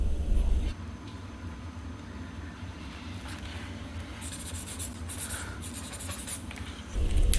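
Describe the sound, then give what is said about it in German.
Pen or pencil scratching across paper while someone draws a picture of a ski jump, a soft continuous rasp of strokes that grows slightly brighter and busier near the end. “Aber weißt du, was ich immer mache? Ich zeichne nämlich immer.”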